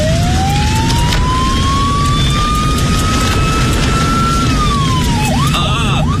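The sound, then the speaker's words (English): A vehicle siren used to get through a night-time traffic jam wails loudly over a constant road rumble, its tone rising slowly, holding, then dropping and breaking into quick warbling sweeps at the end. “It's time to use the siren”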